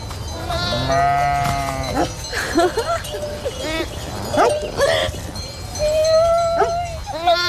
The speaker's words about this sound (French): Quand elles appellent leur agneau, elles ont un truc plus grave.